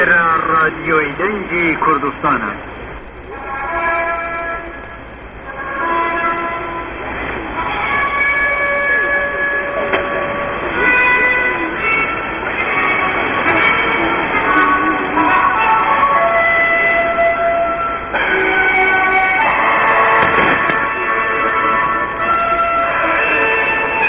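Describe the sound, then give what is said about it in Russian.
A new Kurdish radio station's interval signal plays as a looping melody of clear, sustained tones over steady, narrow-band radio hiss. A voice comes through at times. “У нас есть возможность прослушать фрагмент записи новой станции благодаря интернет-ресурсу Дэйва Кернига «Interval Signals Online».”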